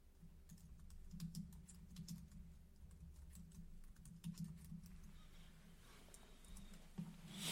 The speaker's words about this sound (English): Hold up. Let me type it for you guys.